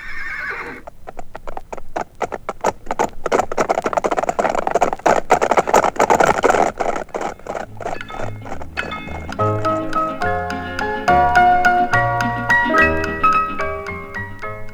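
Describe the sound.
Saddled horses trot with a quick, steady clip-clop of many hoofbeats, and a whinny is heard. Melodic music comes in and takes over in the later part.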